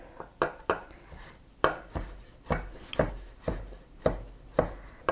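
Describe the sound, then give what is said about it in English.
A knife chops one thick-cut slice of bacon into small pieces, giving a steady series of sharp, woody thuds at a fairly even pace, clear and alone. “So I'm just gonna cut one slice. It's a thick cut kind of slice. I'm gonna cut that into little nubbins here.”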